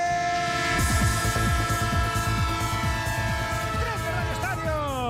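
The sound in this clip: A passing train sound effect with its horn: a loud, sustained multi-tone horn over a steady rhythmic clatter of wheels. The horn tones bend downward near the end.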